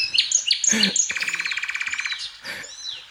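A bird chirps in short, high, bright notes, then breaks into a long rapid trill of many even pulses. A few more sharp chirps follow over otherwise quiet surroundings.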